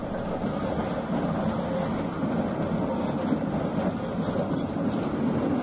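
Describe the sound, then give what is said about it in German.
Running noise of a Konstal Moderus Alpha 105N, a modernised high-floor tram, as a steady broad rumble and rolling hiss at an even level with no voices. “Neben den Tatras gibt es noch einige modernisierte Konstaltriebwagen als reiner Hochflurwagen, so wie hier der Typ Moderus Alpha 105N.”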